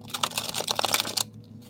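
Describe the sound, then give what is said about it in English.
Playing cards are shuffled in a quick riffle, a quiet dense run of rapid soft clicks lasting about a second before stopping abruptly. “So let's shuffle one more time and see if one comes out.”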